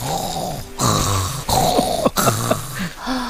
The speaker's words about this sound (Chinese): 这两天忽然开始打呼噜了，那动静